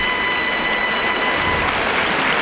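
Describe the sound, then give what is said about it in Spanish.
Bullfight crowd in the bullring applauding the banderilleros, a dense, even wash of clapping that holds steady for a couple of seconds with no voices standing out. “El público que ovaciona a los banderilleros que van a tener que destocarse Y también quieren que lo haga Curros Javier.”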